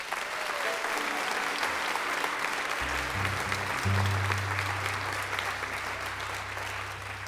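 Applause welcomes a fiddler onto the stage, steady clapping from a crowd that holds for the whole clip, with a low sustained hum entering partway through and continuing under the clapping.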